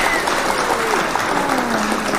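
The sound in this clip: A studio audience applauding, dense steady clapping that holds at an even loud level throughout without pause.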